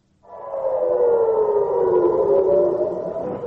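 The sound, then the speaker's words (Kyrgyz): An air raid siren wails in northern Israel near the Lebanese border, a loud, steady, sustained tone whose pitch drifts slightly lower as it holds for several seconds, with no voices. “Жекшембинин таңында Израилдин Ливан менен чектешкен түндүк аймактарында ушундай сиренанын жана аба соккуларынын добушу болуп турду.”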